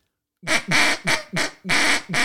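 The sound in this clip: Six loud, raspy duck quacks in a steady run, each harsh and nasal with short gaps between, and no talk.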